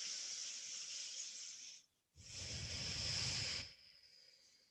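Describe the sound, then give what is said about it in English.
Slow, deep breathing during a yoga session: two long, soft, breathy hisses separated by a brief pause, the second one fuller and slightly louder before fading. “One more breath here.”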